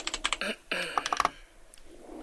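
Rapid typing on a computer keyboard at a dictation service: a quick burst of many sharp key clicks over about a second and a half, then the sound tapers off.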